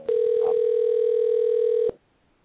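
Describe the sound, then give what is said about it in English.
A flat, steady telephone tone sounds as a call is placed back to a caller to bring them back on the line, lasting almost two seconds before stopping abruptly into quiet line noise. “I had a caller calling in, and so I'm calling the caller, get it back online”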